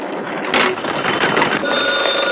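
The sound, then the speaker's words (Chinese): Telephone ringing with a loud, continuous rattling bell sound that fills the whole short span, steady throughout, with thin high tones layered above. “立定，接电话。”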